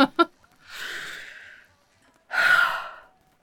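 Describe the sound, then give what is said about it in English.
A person draws a deep breath in, then after a short pause lets it out in a longer, louder, breathy sigh. “Deep breath.”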